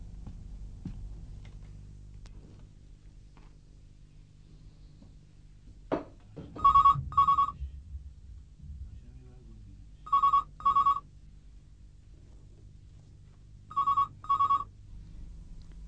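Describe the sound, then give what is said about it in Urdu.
A telephone rings in a home in three double bursts of a high electronic trill, spaced a few seconds apart, over a faint low background hum. “آرش، آرش میرا خیال یہ سارا کا phone ہے”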